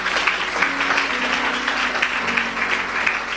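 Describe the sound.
Applause from a church audience: steady, dense clapping that runs through the whole clip.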